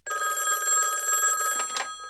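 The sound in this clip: A telephone bell rings in one continuous, bright, steady trill lasting about two seconds, with no voices.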